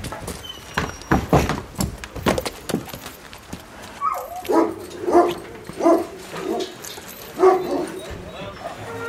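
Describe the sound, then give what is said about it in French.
Impatient dogs shut inside a truck bark and yip repeatedly, the sharp, irregular bursts rising and falling in loudness over a muffled background. “Les chiens qui s'impatientent, qui sont dans le camion.”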